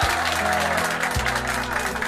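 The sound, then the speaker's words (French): Applause dubbed in after recording: steady, dense clapping from a crowd, even and continuous, layered over low sustained musical tones that shift pitch partway through. “Les applaudissements ont été rajoutés vous après.”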